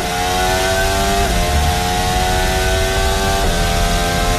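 A racing car engine screams at very high revs in a steady, buzzing, harmonic drone that stays loud throughout. Its pitch shifts twice abruptly, like quick gear changes.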